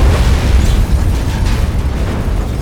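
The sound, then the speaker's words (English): A powerful explosion blows in the buildings along both sides of a street, heard as a dense, loud, roaring rumble that fills the whole clip without easing. “It exploded with a battering, violent concussion that blew in the buildings on both sides of the street.”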